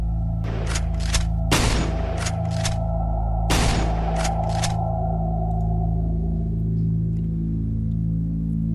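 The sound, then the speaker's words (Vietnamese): Repeated gunshots fired at the knee and elbow joints of a bronze automaton: several sharp cracks in quick clusters, with two heavier booming shots, each ringing out over a steady low hum. “nhắm vào khớp gối và khớp khuỷu tay của người đồng mà liên tiếp nã đạn”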